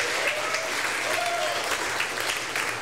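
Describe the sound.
Audience applause welcomes a performer on stage in Knoxville, a steady, dense wash of clapping held evenly throughout, with faint voices mixed in.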